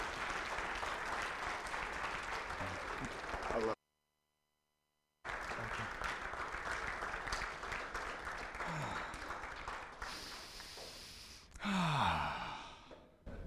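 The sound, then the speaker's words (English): Audience applause welcomes a former youth pastor back to a church platform: dense, steady clapping breaks off into a short silence, then resumes just as strong. “So would you put your hands together and just welcome him back to this platform?”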